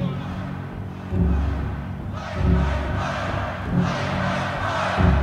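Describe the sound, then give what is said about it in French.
A crowd at a Doors rock concert in Miami protests with loud, roaring shouts and jeers. Several swelling surges of massed yelling stand over a constant dense din. “Contestation dans le public. Ils ne veulent pas qu'ils parlent. Ils veulent que ça joue, qu'ils fassent le show.”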